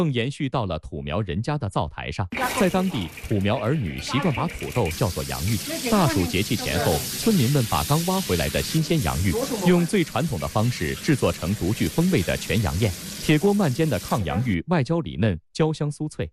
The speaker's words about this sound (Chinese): 铁锅慢煎的炕洋芋外焦里嫩，焦香酥脆